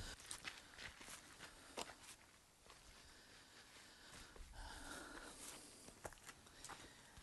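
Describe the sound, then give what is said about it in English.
Faint, irregular footsteps of people walking up into the ruins of the ancient city of Bethsaida, many soft steps with light scuffing throughout. “So let us go in and see the city with our own eyes. Be careful as we walk up.”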